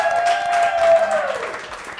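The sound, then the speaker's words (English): A studio audience applauding after a panel, with dense, continuous clapping that stays loud and steady for about two seconds. “I would like to very much thank our studio audience. Would you guys like to hoop and holler for us?”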